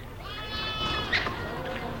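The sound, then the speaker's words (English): Faint, wavering sheep bleats come from a petting zoo fence while a zoo staff member feeds the sheep. They are quiet and brief, and people talk over them. “feeding some sheep”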